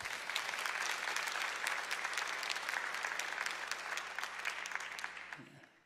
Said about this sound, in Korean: 목사님을 환영하는 박수로 우리 말씀 듣겠습니다.